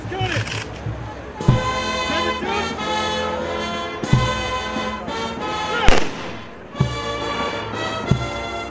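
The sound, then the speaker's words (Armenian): An honor guard fires a gun salute at a military funeral for pilots. Several sharp, loud cracks ring out at irregular intervals over a continuous tonal background. “Օդաչուները հողին հանձնվեցին զինվորական կանոններին համապատասխան, պատվոպահակային վաշտը աճյունները հողին հանձնելուն պես կրակ արձակեց։”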